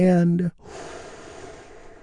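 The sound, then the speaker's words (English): A big, deep breath drawn in after a brief spoken word: a long, soft, airy inhale that holds steady and quiet for well over a second. “And we do that by taking a big, deep, healing breath. Here we go, all together,”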